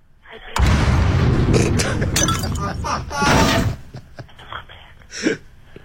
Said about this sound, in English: You can come and collect your cello, all right? Yeah? But you can come and collect it in its 100 pieces because I'm going to smash this damn thing right now. Listen to this.